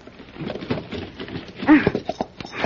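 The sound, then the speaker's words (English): A horse named Splendor shifts and thuds its hooves while being saddled, making a few soft clops and shuffles in irregular rhythm. “Whoa, Splendor. Now, let's put this saddle on. Hold still now.”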